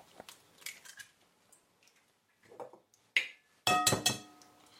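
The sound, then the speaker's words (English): Eggs are cracked into a plastic cup: faint taps and shell noises lead up to two sharp, bright cracks near the end, the last one the loudest and followed by brief crackling. “You have a plastic cup and two eggs. We're not going to actually use the whole two eggs. We're going to use one egg and one egg white, not the yolk. So first, what we're going to do, going to crack the eggs.”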